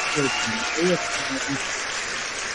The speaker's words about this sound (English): They stop clapping at once. It's pretty awesome how synchronized they are.